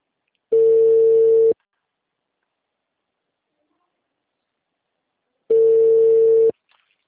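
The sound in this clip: A telephone ringback tone on a call that ends up in voicemail: two steady, mid-pitched tones of about a second each, separated by a long silence, with no voices.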